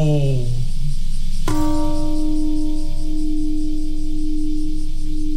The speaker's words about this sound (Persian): زنگ صلح ساعت 8:15 دقیقه صبح به وقت هیروشیما به صدا در آمد.